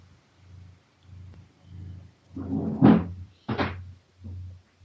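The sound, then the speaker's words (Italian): A door being closed gives two short, solid thuds in quick succession, standing out above a faint, steady low background hum. “vado a chiudere una porta, arrivo”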